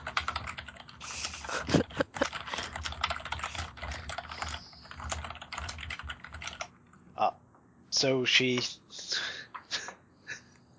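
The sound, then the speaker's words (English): Loud typing on a computer keyboard, rapid clattering keystrokes for several seconds, then a pause, a brief burst of voice, and a few more scattered key taps. “Who is typing so loudly?”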